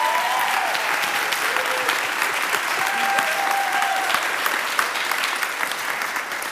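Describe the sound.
Audience applause welcoming a speaker, a dense, even wash of clapping that holds steady throughout, with a few whistles rising above it.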